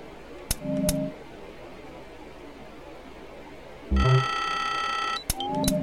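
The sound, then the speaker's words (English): A warning beep sounds once as a sustained, buzzy electronic tone lasting over a second. Sharp clicks and short low hums come before and after it, over steady background hiss. “There's a warning beep there.”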